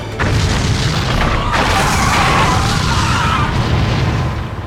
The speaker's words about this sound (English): Little one, get down! They're firing a missile at us.